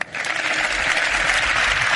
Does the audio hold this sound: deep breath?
no